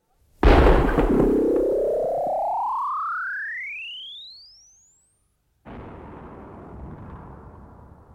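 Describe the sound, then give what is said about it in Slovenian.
A cannon firing a blank shell: a sharp blast followed by a long whistling tone that climbs steadily in pitch and fades, then a brief silence before a softer rumbling hiss. “Slepo granato so ustrelili. Slepo granato.”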